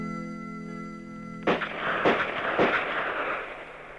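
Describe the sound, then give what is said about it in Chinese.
Three crisp rifle gunshots ring out at a police shooting range during live-fire practice, evenly spaced with sharp cracks and short noisy tails, following a sustained steady tone. “清脆的枪声划破了万里晴空”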